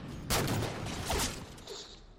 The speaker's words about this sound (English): I'm shooting him in the fucking head.